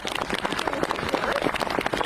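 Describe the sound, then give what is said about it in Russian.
An audience applauds for soldiers: a quiet, even patter of many hands clapping that runs without a break. “Я прошу всех аплодисменты парням.”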